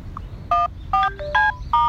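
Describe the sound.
Four short bursts of audio data tones for a Tone Connect service, each a chord of steady pitched tones. Fainter gliding tones sit between the bursts, and no one talks.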